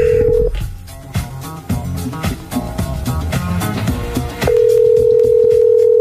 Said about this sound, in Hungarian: Kicsöng, kicsöng, kicsöng.